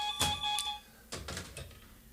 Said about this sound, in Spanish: Bueno, tengo que atender el teléfono.